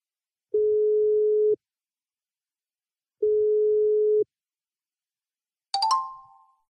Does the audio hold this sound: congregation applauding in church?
no